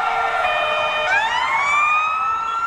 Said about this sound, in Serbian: Prodorne sirene konvoja crvenih vozila sa brojnom vatrogasnom ekipom koja grabi ka lokaciji gdje je izbila vatra